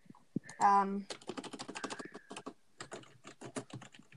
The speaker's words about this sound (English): I just typed in what clan.